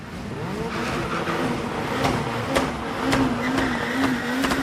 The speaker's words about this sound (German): Vor dem Start lassen sie die Reifen auf dem klebrigen Asphalt einmal so richtig durchdrehen, auf das sich Gummi und Gummi vermählen.